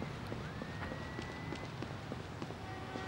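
Running footsteps in a video game, heard as a quiet, steady patter of quick soft steps over a continuous noisy background with a faint held tone.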